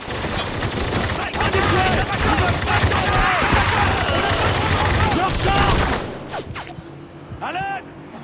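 Gunfire in a video game battle: heavy, overlapping shots roar almost without a break for about six seconds, then the barrage cuts off, leaving quieter, scattered sounds for the last two seconds.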